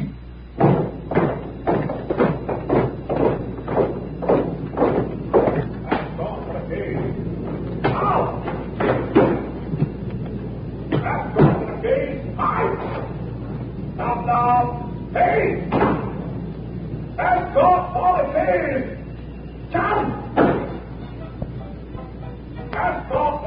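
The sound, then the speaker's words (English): A door in a front hall is locked with a long series of heavy thumps, knocks and slams, a quick rhythmic run of blows at first, then more irregular clattering and banging. “Time now, as promised, for the locking the door ceremony. Once in every 4 years, the 29th of February, we do present this feature. So down to the front hall, please, for the familiar sound.”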